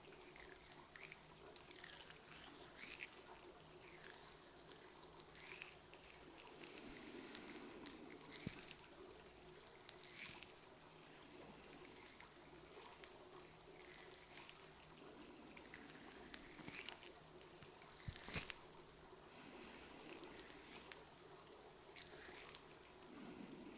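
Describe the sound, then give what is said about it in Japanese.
Fingers touch the ears of a binaural microphone, moving from top to back, making soft crackling, squishy rustles and scratches that run continuously with scattered louder bursts throughout, with no talk. “まずはお耳の上から後ろに触れさせていただきますね。”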